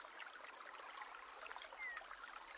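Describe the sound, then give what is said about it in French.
Water flows over stones and forms small white cascades on a hot summer day. The sound is a soft, steady trickling rush with no voices. “L'eau coule sur les pierres, formant ici et là de petites cascades blanches”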